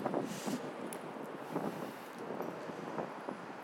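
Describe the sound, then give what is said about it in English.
Wind buffets the microphone during an outdoor walk along a street with a guide dog. Steady, breathy rushing noise swells in soft gusts throughout, with no talk. “Ooh, breezy. Not a good way for recording.”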